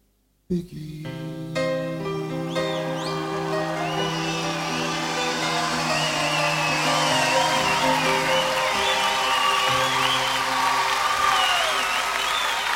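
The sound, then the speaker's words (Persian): Audience applause at a Persian-language live music night, starting abruptly and swelling into dense, steady clapping that carries on under lingering musical tones. “به افتخار این دوستان عزیز من این دست خیلی قشنگی”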